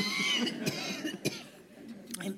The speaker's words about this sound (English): I'm so sorry about this. Enough to make anyone cough.